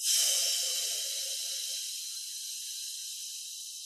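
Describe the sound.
A slow, deep inhale during a breathing exercise: one long airy hiss, strongest at the start, then easing off gradually and holding steady to the end, with no voice over it.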